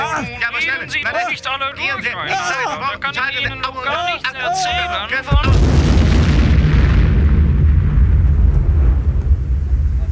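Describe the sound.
A bomb explosion sound effect cuts in after several seconds of talking. A sudden, loud boom gives way to a long, roaring low rumble that slowly thins out.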